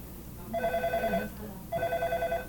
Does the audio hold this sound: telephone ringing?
yes